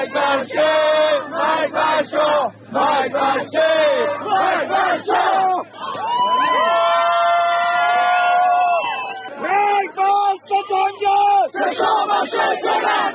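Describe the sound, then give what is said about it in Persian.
Supporters of an Iranian opposition group chant slogans at a political rally. Loud, rhythmic bursts of massed voices give way to a long, sustained shout in the middle, and then the rhythmic chanting resumes. “یا مانند این صدای هواداران سازمان مجاهدین خلق”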